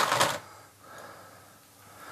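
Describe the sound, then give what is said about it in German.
A knife cutting further into the mouth of an eel: one short, crisp rasping burst at the start, then near quiet with only faint low noise. “Hier schneide ich noch mal kurz nach, dass das Maul weiter rangeht.”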